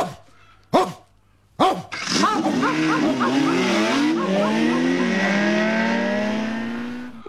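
A dog gives a few sharp barks as a start signal for a race, followed at once by a long, loud, whooshing whine whose pitch sweeps and wavers before it slowly fades.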